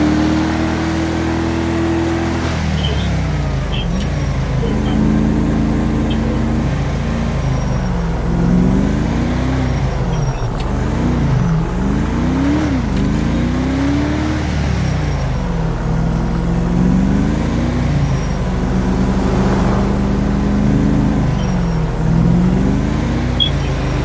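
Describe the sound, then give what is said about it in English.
A Dodge Charger police car used for speed enforcement drives and accelerates hard, its engine note climbing in repeated revving sweeps, loud and continuous, with the rumbling drone of the motor underneath throughout. “Well, speed enforcement uses chargers, which is this vehicle. Also, this vehicle is cool because it accelerates really fast.”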